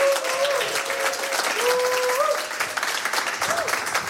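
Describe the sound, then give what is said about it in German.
Studio audience applause at a live show from Studio 1 in the Bikini, thick continuous clapping from a crowd with a few tonal cheers over it, easing slightly after about two seconds but carrying on to the end. “Herzlich willkommen, nochmal einen Applaus bitte hier von euch.”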